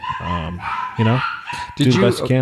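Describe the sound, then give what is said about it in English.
Small dogs yip and bark excitedly in several high, sharp bursts as someone arrives home, while a man keeps talking. “You're gonna hear yipping dogs, and you have been. That's my wife coming home, and the dogs are going crazy until she gets in the house.”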